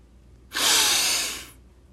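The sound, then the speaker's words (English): Breathing: a single quick rush of breath lasting about a second, moderately loud and alone against near silence. “As always, breathe with me really quickly.”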